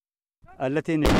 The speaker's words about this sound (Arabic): اندلعت أصوات المدافع في الجبهة الأمامية